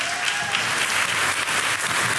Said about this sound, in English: Okay, now you can clap.